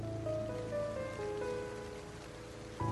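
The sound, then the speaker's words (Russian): Cold rain drums on a leaky roof as a steady, dense patter that stays even throughout, with sustained musical tones over it. “Холодный июльский дождь 1993 года стучал по дырявой крыше.”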